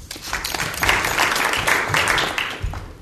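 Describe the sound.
Applause from an audience welcoming a poet to a reading: a dense, steady crackle of many hands clapping that holds fairly loud for the whole stretch, with no talk over it.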